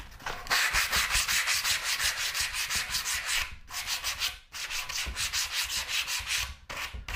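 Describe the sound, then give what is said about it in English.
Sandpaper rubbed along a wooden edge, giving loud, rapid, rhythmic rasping strokes that run steadily with a few brief pauses between passes. “And I'll get a bigger sheet of sandpaper to do the actual sides.”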